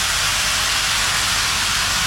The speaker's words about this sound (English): Even if you are not a train person, if you were trackside when the big boy steam locomotive rumbled past, you'd say something like, "Damn, that's impressive."